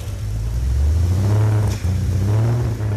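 A newly assembled engine, started for the first time after lubrication, runs loud with a deep, rumbling drone and revs in a couple of swells.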